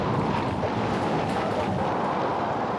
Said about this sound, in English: The rain and the wind have become more and more severe.